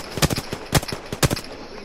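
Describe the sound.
Gunfire in a video game: many sharp, loud shots in quick, irregular bursts, with a few stronger cracks recurring about every half second.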